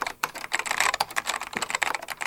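Rapid typing on a computer keyboard, with many quick, irregular key clicks clattering in a dense run without pause.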